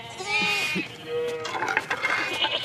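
Sheep bleat in a pen: two wavering bleats, the first longer and more nasal, followed by scuffling, shuffling noise.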